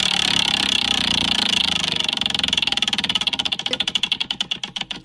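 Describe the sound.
A prize wheel spinning, its pointer ticking rapidly at first, then the clicks spread out and grow distinct as the wheel slows toward a stop.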